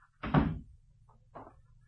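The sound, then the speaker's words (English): A door being closed lands as a heavy, low thud, followed about a second later by a softer, shorter knock as it settles shut, with a faint steady hum underneath. “Close the door.”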